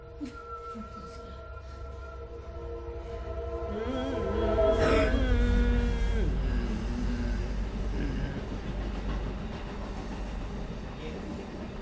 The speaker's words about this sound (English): So train's coming.